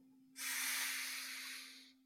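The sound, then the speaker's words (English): A single deep breath drawn in during a guided chakra-balancing exercise: one long, steady, airy rush that holds for well over a second and then tapers off, with a low steady hum underneath. “Let's take a deep grounding breath in together, breathing in,”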